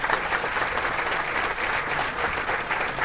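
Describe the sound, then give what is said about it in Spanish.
Steady applause from an audience thanking the panelists at the close of an environmental panel discussion. The clapping is dense and even throughout, with no voices standing out. “Bueno, muchas gracias de verdad a los panelistas, un merecidísimo aplauso.”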